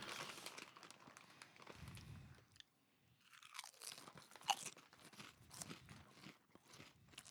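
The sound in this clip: Quiet crunching and chewing of a crab chip, with an irregular stream of crisp bites and crackles, a brief lull partway through, and no talk.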